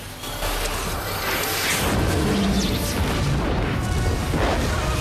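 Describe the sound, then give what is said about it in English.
Explosions as a missile tears through a hydrogen-filled zeppelin airship inside a massive hangar: a loud opening boom swelling into a sustained, roaring rumble of blasts and crashing debris that stays intense to the end. “The missile tears through the airship, creating a series of explosions.”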